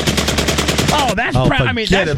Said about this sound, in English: It's a mechanism that forces a trigger to reset look at this gun. My lord. Allows for faster follow-up shots in a semi-automatic mode.